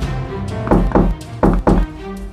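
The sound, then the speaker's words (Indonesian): Someone knocks on a wooden door with four solid, hollow thuds in two quick pairs, separated by a short pause, over a faint low background. “Serigala jahat kembali ke rumah dan mengetuk pintu.”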